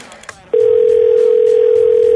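A telephone dial tone sounds while a call is being placed. After a few faint clicks it starts abruptly and holds as one loud, steady, unbroken tone to the end.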